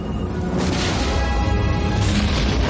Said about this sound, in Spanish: El halcón dispara contra el generador y lo hace explotar.